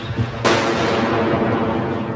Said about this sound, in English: The mortar bombs kept on falling.